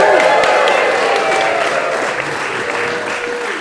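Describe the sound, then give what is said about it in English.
A live audience applauds in a chapel, with dense, continuous clapping that holds steady and eases off only slightly toward the end. “to confirm that this is live at Geneva Point in the Chapel in the Pines, let's hear from this live audience, please.”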